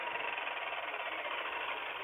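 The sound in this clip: Engine noise comes over a caller's phone line, sounding like a go-kart: a steady, rough, buzzing drone with a gritty rattle and no break, alone with no talk.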